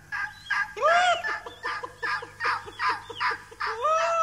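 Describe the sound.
A turkey gobbles in a rapid burst of many short, throaty rattling pulses, framed by louder warbling calls at the start and end. The gobble is loud and heard alone, without voices.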